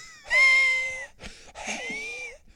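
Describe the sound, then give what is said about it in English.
A voice imitates a wheezing, seven-generations-inbred cat with a respiratory illness breathing: two drawn-out, strained, reedy tones, the first louder, split by a brief rough catch of breath. “like seven generations inbred cat with a respiratory illness that just gave you the look. Every time you go outside, they look at you like, fucking kill me. Yeah. And he would please breathe like this.”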